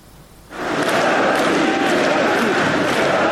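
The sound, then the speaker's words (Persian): A large crowd chants and cheers in unison, reportedly 'Russia, Russia', at a ceremony where Russia's president and leaders of four occupied Ukrainian regions joined hands. It bursts in suddenly after a brief quiet and stays loud and dense throughout. “رئیس جمهوری روسیه و رهبران چهار منطقه اشغالی اوکراین دست در دست هم شعار روسیه روسیه سر دادند.”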